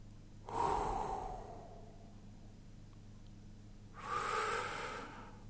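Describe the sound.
A person breathing in deeply, twice: two long, soft, airy inhalations separated by a quiet pause, over a faint, steady low hum.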